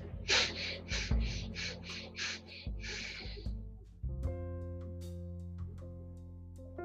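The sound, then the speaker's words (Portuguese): Nasal breathing exercise: a quick series of short, sharp sniffing inhalations through the nose, then one longer, drawn-out breath, all over a soft, steady musical drone. “São quatro respirações curtas e uma longa. E a gente repete isso quatro vezes.”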